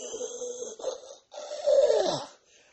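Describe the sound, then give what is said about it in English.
A voice imitates a wheezing, strained breath, mimicking a man who struggles to breathe after pulling a mask off his face. It comes as a few raspy, throaty gasps, with the longest and loudest one near the end before a faint trailing breath. “I don't know if y'all saw that clip of him when he went back to the White House and he looked like he was wheezing and couldn't breathe and took the mask off his face and was like...”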